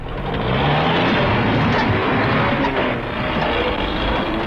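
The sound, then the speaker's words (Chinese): A car, a convent's shopping car parked by the roadside, is driven off with a loud, steady engine roar and broad road rumble that holds throughout. “可他们只看到驾驶室里没人，就把车开跑”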